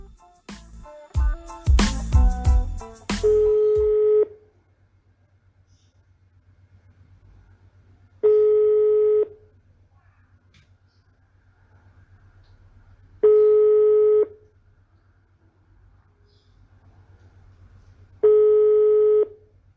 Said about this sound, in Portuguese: Aproveita, eu vou ligar aqui para ele, que hoje vai ser por chamada.